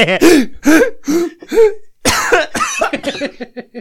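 Loud, raspy coughs and throaty grunts from a man in a quick series of bursts, then a tighter run of short, hoarse hacks at the end.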